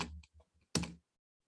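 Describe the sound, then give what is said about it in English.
Typing on a computer keyboard while searching for a name: a few quick, separate bursts of key clatter, the last one the loudest, followed by silence. “Let me find Story here. Let me type him in.”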